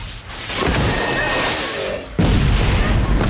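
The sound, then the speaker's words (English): A flying hunter-killer war machine fires two missiles down a corridor, producing a loud, dense, rushing roar of launch blasts with a sharp surge about two-thirds of the way through. “A multitude of lethal-looking weapons unfolds, and it fires two missiles at John and Kate”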